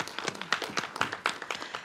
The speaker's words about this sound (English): If we can give them a round of applause for always being there in the front lines.